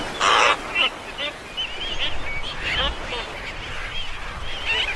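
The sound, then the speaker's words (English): Seven-month-old black-footed albatross chicks call with harsh, croaking squawks. The calls come irregularly, with one loud burst at the start followed by several fainter, raspy calls. “These 7-month-old black-footed albatross chicks have recently been abandoned by their parents, and now, driven by hunger, it's their time to get airborne.”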